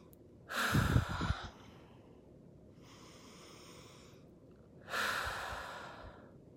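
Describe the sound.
Deep, slow breathing during a guided breathing exercise, with big inhales and exhales: two loud, breathy rushes of air frame a softer, quieter breath in between, with no talking.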